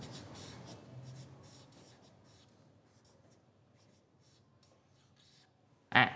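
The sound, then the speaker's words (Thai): Students writing on paper worksheets in a classroom, a faint, continuous scratch of pencil or pen strokes with brief rubbing, ending in one sudden loud knock. “นักเรียนเขียนได้เลย”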